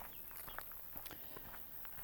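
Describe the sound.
Faint footsteps of someone walking outdoors, soft irregular taps under a low hiss of background noise.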